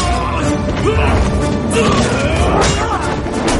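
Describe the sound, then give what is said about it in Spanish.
A sword fight against warriors inside a temple in a fantasy adventure film. Loud, crowded crashes and sharp whacks pile up over a dense rumble, with a few heavier impacts standing out near the middle and later. “Hace una seña y sus hombres se abalanzan para atacarles. Zuma coge una espada y lucha contra los guerreros bajo la atenta mirada de su padre.”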